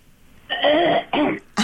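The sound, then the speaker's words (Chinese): A person clears their throat in two rough, loud bursts, a longer one followed by a shorter one, heard alone without talk. “要清喉咙。”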